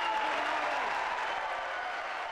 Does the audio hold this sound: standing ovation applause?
yes